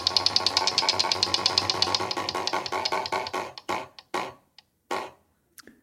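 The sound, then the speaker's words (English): A prize wheel spins during a quiz game, its pointer ticking rapidly at first. The clicks gradually spread out and slow to a few last, separate ticks before it comes to rest. “would you spin the wheel, please”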